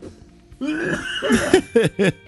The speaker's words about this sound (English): I got to cough.